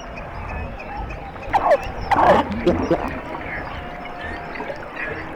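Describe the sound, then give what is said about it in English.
A hydrophone lowered a few feet beneath sea ice picks up scattered underwater squeaks, chirps and a few sliding whistles over a constant faint hiss, with a busier cluster of calls in the middle. “What we literally did was drop the hydrophone down a few feet below the ice. It's like you're in a rainforest. There's all this chattering and whoop and squeaks and pops and whee and ah!”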